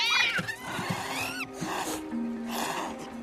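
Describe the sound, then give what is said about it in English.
A cat yowling as it swipes at lemurs on a boat: a high, wavering cry at the start, then several rough, noisy bursts and further harsh vocal sounds at a moderate level. “Cat emerges, swiping at them.”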